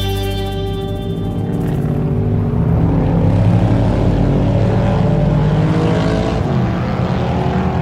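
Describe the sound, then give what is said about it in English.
Race cars of many kinds lapping on an open practice day at a motor raceway in northern Victoria. A loud, continuous engine drone and roar holds throughout, with a clearer engine tone fading early on. “It's an open practice day with all sorts of cars and drivers cutting laps,”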